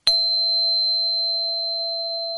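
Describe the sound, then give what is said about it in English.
A lone pure tone sounds by itself, struck once with a brief bright attack and then ringing on as a clean, steady hum with a faint high overtone, fading only slightly over two seconds. “And I'll let the 666 sound by itself so somebody can just hear it by itself.”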